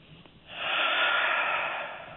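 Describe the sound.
A slow, drawn-out breath from a person during guided meditation: a soft, airy rush that begins about half a second in and holds steady for nearly two seconds before easing off, with no talking.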